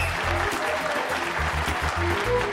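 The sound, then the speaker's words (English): Agents in a large control room break into applause, a dense, steady patter of many clapping hands throughout. “They walk into the large control room, and all the other agents break out in applause.”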